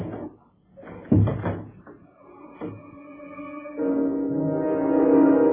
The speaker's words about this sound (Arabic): اديني قفلت الباب، ما تخافيش بقى.